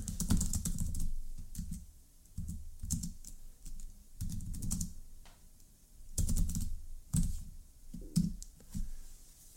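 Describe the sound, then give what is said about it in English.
Typing on a computer keyboard, with rapid key clicks in uneven bursts and short pauses between them, steady and moderately quiet throughout. “I'm going to have to type this up.”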